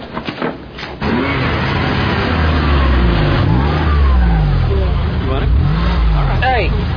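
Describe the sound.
Car engine revving hard in a stolen car: a loud, steady roar with rising and falling pitch sweeps, heard under voices talking.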